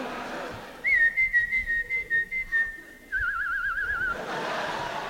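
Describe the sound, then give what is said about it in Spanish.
Whistling by a woman at a live comedy show: a quick run of short, evenly spaced notes at one steady pitch, then a longer, slightly lower warbling note, clear over faint background noise. “Dijo, comadre, qué silbadora.”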